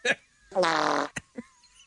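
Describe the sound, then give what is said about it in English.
A single drawn-out, buzzy fart lasting about half a second, loud and rasping, with a few short, faint sounds just before and after it. “What? the sound of that fart.”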